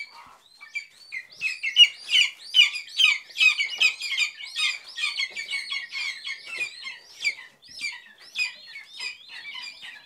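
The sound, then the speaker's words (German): Hungry lesser spotted eagle chicks at a rearing station call loudly: many rapid, high, squeaky chirps and squawks overlap in a continuous, busy chorus. “Und jetzt sind 26 Schreiadler-Küken in einer Aufzuchtstation bei Potsdam geschlüpft. Sie sind klein, grau, haben Knopfaugen, sind unfassbar flauschig und sehr laut, wenn sie hungrig sind, die Schreiadler-Küken.”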